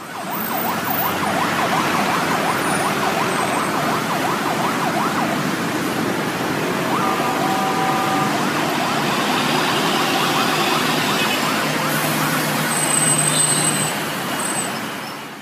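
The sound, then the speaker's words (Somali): Ambulance sirens wail over steady traffic rumble on city streets in Mogadishu as ambulances carry many wounded soldiers to hospitals after a suicide attack near the airport, the siren tone continuous and partly masked by the noise. “waa dhawaaqa gaadiidka ambalaasta ee dabulayay dhaawacyada ciidamada faraha badan”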